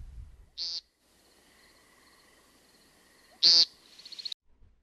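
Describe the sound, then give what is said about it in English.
An American woodcock gives two loud, brief, buzzy peent calls separated by a few seconds of near quiet, with soft, quick chirps after the second call. “The sound of the American woodcock is a distinct peent.”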